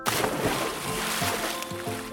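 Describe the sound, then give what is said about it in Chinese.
Water splashes and sloshes as someone jumps into a forest pond. A sharp burst opens the sound, followed by continuous churning water. “爱孟奇与奥帕勇敢地跳进了森林池塘里”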